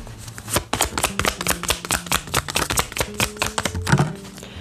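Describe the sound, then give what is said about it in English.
Tarot cards being shuffled make a fast run of many crisp clicks and snaps that overlap in a steady, uneven patter. “let's get some conversation cards from your person from the Love Tarot”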